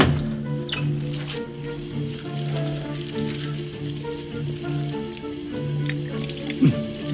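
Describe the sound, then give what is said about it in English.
A tap runs steadily into a sink while a man washes his hands with a new bar of soap. The even watery hiss continues for about seven seconds over a low constant hum, with one brief louder knock near the end. “So now he's washing his hands, and he just grabbed this new bar of soap.”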